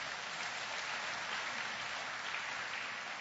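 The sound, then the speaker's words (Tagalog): Church audience applauding for the Lord, a dense, continuous patter of many clapping hands held at an even, fairly loud level throughout without pause. “Isang malakas sa palakpak sa ating Panginoon.”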